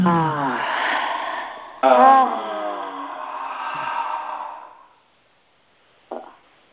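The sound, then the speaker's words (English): A group breathes in together during a guided breathing exercise, making a long, soft, breathy rush that lasts a few seconds. A brief voice is heard at the start. “Breathe in all together.”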